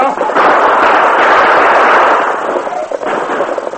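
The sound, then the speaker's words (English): Gunshots fired at attackers raiding covered wagons on a plain: a loud, dense, continuous burst of rough gunfire with no clear gaps between the shots. “Use your gun, Tonto.”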